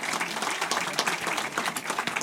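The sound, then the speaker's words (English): An audience applauds guests at an evening event with dense, steady clapping from many hands, sustained throughout without talk. “our guests tonight, Marta Kubica, Asaf Admoni, and Beth Safa, please give them a round of applause”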